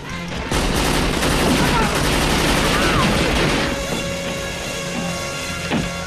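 Gunfire from pistols and rifles as a crew member aboard a ship fires upwards, a dense, loud run of overlapping shots for about three seconds that then drops to a quieter, rumbling tail.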